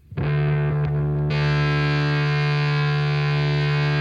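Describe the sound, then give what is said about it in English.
An electric bass plays a metal solo through distortion and other effects: a few plucked notes lead into a sustained, buzzing, heavily distorted chord that turns brighter and rings on loudly. “Bass solo, take one.”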